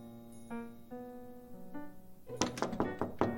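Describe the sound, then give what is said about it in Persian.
Knocking on a locked door, a quick run of several sharp raps that follows a brief speaking voice. “باز میکنم در نزن باز کنید دیگه”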